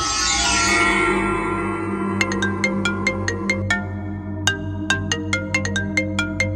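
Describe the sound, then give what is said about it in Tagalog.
A cellphone ringtone for an incoming call: a bright electronic tune that settles into a steady rhythm of repeated plinking notes, loud and uninterrupted. “may tumatawag sa aking cellphone”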